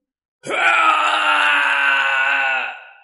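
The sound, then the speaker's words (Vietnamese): A ghost's mournful wailing cry as it is engulfed by nine-colored flames: one loud, sustained wail that starts abruptly with a short upward bend, holds steady, then fades out, heard alone. “Tiếng kêu thê lương truyền khắp thiên địa.”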